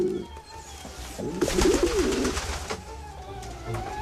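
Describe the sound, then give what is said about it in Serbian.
Pigeons coo in soft, low, throaty phrases that repeat a few times, warbling gently over a quiet background. “Golubovi su spori, ali pouzdani. Iš, iš!”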